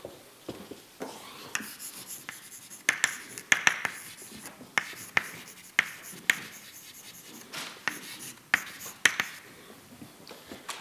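Writing out an equation, heard as many quick, crisp strokes and taps in an irregular rhythm, with light scratchy rubbing between them and no voices.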